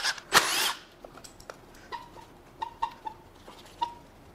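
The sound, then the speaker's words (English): A power tool whirs in a short, loud burst as it zips bolts out of a rusty vehicle's engine bay. Faint scattered clicks and small metallic taps follow. “So just get to zipping some bolts out till parts fall off.”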